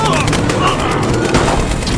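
Gunfire sounds as a dense, continuous volley of sharp cracks, many shots overlapping at a steady, loud level.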